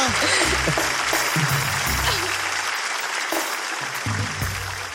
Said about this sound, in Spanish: Bueno, un aplauso para Guaira. ¡Gracias, Guaira!